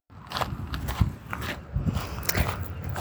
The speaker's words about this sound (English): Hopefully you can hear the wonderful sounds of my walking behind me, maybe the crunch of the gravel.